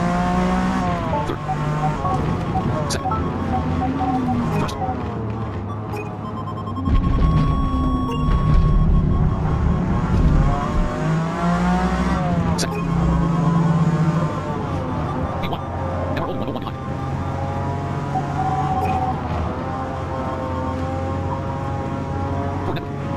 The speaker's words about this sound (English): Thanks for playing Forza Motorsport 2024 for number 25 Mustang RTR, drive type, RWD, BI 810, car class, R